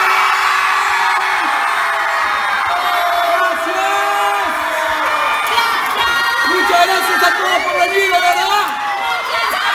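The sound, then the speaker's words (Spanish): An audience cheers on a count of three at a fan event, with shouting, whoops and high whistles rising into a loud, sustained roar, and voices calling out through it. “A la cuenta de tres, grito, aplauso, chiflido, todo. Ahí estamos. Uno, dos, tres.”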